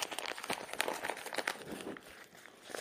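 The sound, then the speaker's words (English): Paper mail envelope being opened by hand, a steady run of crinkling and rustling paper with many small, quick crackles at moderate level, easing off briefly before a final rustle. “let's crack open the envelope here”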